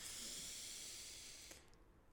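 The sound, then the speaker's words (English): A deep breath drawn in through the nose during a relaxation exercise, a soft steady hiss that lasts about a second and a half, then trails off quietly. “Let's relax. Let's roll our shoulders back. Let's take a deep breath in through the nose”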